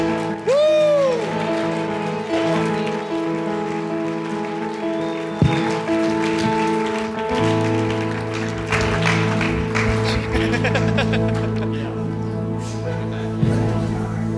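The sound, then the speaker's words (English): Audience applause greets an honored couple at an evening church gathering. The clapping is sustained for about fourteen seconds under loud held musical tones, with the sound growing fuller midway. “Would you please put your hands together for Roger and Jeannie Diamond? Come on, stand up. Come on, let's give them honor. Come on, give them a great KC welcome tonight.”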